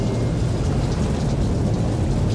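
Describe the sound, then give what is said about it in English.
Rolling thunder with rain: a dense, loud low rumble blended with the steady hiss of rainfall, unbroken for about two seconds. “thunder rolls. We don't want any thunder. Not today.”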